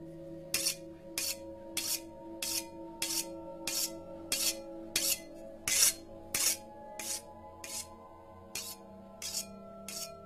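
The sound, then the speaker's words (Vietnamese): A butcher's knife is scraped against the edge of a plate to sharpen it. Many short, gritty, hissing strokes repeat in a steady, even rhythm over a quiet background. “cầm lên một con dao bầu. Ả mài vào cái cạnh đĩa, âm thanh nghe đến giận người.”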